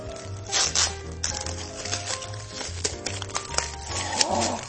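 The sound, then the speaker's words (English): Paper crinkling and tearing as a wrapped gift is unwrapped during a gift-swap game, a continuous busy rustle with scattered sharper rips, moderately loud and without talk. “Or you can unwrap another gift.”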